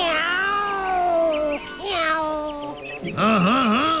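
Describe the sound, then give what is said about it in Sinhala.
A cat meows three times, each cry loud, drawn-out and tonal, the last one wavering up and down in pitch. “ඒ බාර විකාර පූසා ආයෙත් ඇවිල්ලා නේද?”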